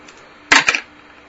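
Two sharp gunshot sound effects crack in quick succession during a tabletop role-playing game session as a character aims and fires, followed by quiet.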